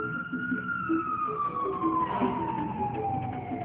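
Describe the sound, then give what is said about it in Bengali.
Fire engine siren passing by, one long, loud wail that slides slowly downward in pitch over a steady low rumble of traffic. “Fire সার্ভিসের গাড়ি মাত্র যাচ্ছে”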